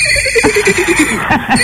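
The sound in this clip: A person's voice imitates a horse's whinny: a brief, loud, trembling neigh whose quavering pitch steps downward in a rapid series of pulses.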